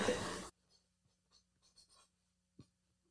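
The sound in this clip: Pen strokes scratch faintly as someone writes down an answer during a newlywed-style couples quiz. A few short, soft scratching bursts follow a brief loud burst of noise at the start.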